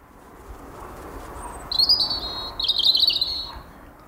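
Outdoor ambience in rural County Limerick, Ireland: two bright, high bird calls rise over a soft, steady background hiss, the second call a little longer than the first, with no voices.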